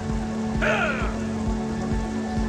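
Rain falls steadily, a continuous even hiss that lasts the whole clip over a low rumble, with a brief brighter sound breaking through near the start.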